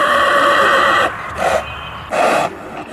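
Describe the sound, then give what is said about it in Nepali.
A white horse that pulls a tonga cart gives a loud, sustained high whinny, followed by two shorter, harsher bursts, with no voices. “उहाँ र परिवारको सहारा बनेको छ एउटा सेतो रङको घोडा”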